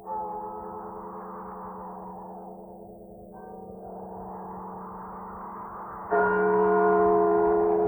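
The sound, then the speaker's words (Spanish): Church bells toll for the dead on All Souls' night as a continuous, echoing metallic drone of layered, sustained tones, with a louder fresh strike near the end. “La noche de difuntos me despertó a no sé qué hora, el doble de las campanas.”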